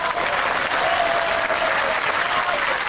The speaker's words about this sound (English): When the official tally was announced, LDP lawmakers in the auditorium cheered Abe's victory.